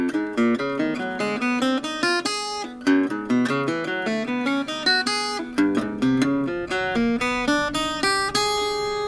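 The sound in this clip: Acoustic guitar plays a short finger exercise for the pinky, many quick plucked single notes in an even, steady rhythm, clear and alone with no talking.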